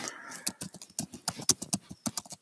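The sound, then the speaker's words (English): Rapid typing on a computer keyboard as a search query is entered: many quick, irregular clicking keystrokes in a steady flurry, fairly soft, with no talking over them. “I'm gonna type in Bible verse,”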